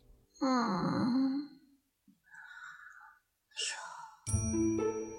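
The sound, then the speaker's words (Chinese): A small, chubby child stirs in bedding with a sleepy, drawn-out voiced grunt, followed after pauses by softer breathy sounds and a brief ringing tone. “天尊听到一声哼哼，凑过去一看，就见被褥里滚出来了一个胖乎乎的娃娃，打着小呼噜，睡得还挺熟”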